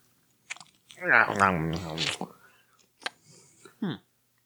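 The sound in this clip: Soy-sauce-flavoured jerky crunches between the teeth in a few short, dry bites. A person talks between the chewing sounds, with one crunch before the talk and a couple after it.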